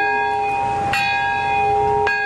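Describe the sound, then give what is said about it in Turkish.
A peace bell tolls at a memorial ceremony in Nagasaki's Peace Park for the atomic bombing anniversary. Two bright clangs land about a second apart over a long, steady ringing hum that carries through the whole clip. “Bombanın patladığı anda barış çanı çalındı.”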